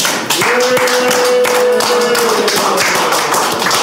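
An audience claps and cheers loudly in a dense, continuous burst of sharp claps that holds steady throughout, with a sustained tone running through the middle.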